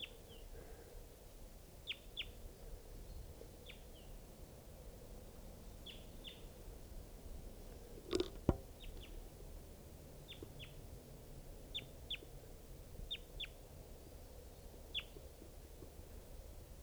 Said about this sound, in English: this is a wild crossbill